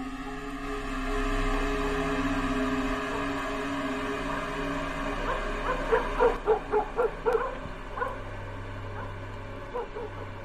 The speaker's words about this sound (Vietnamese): tiếng ếch nhái kêu ở ngoài đồng, tiếng chó cắn ma răng rẳng ở đâu đây.